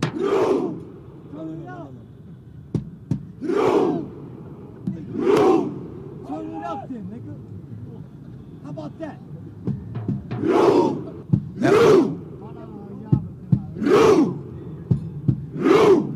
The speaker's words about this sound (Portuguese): Os torcedores da Noruega estão em plena Times Square, vários, milhares de torcedores simulando uma remada. É uma característica da torcida norueguesa, eles fazem isso nos estádios